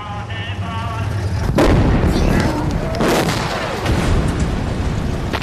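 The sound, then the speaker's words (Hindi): Anti-aircraft guns firing skyward as a war breaks out: sustained roaring bursts of gunfire with two heavy, booming blasts standing out, loud and dense throughout. “लगता है जंग शुरू हो गई। बंदूकों का रुख आसमान की तरफ क्यों है? ये बंदूक नहीं, एयरक्राफ्ट है।”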